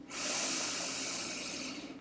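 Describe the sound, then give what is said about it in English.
A single deep, steady breath drawn in through the nose during a guided breathing exercise: a soft, airy hiss that lasts about two seconds and stands alone, with no talk. “So let's take a deep breath in together, in through the nose, into the belly.”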